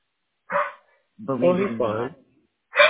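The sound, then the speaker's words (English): A dog barks and yips in three short harmonic bursts. The middle one is longer and drawn out, almost talk-like. The bursts are fairly loud and separated by silence. “Please excuse my dog.”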